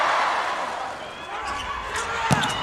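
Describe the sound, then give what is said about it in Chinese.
A volleyball serve by Otsuka Tatsunori in a Japan–Iran match: one sharp ball strike near the end, over a steady roar of crowd noise. “大冢达宣的发球”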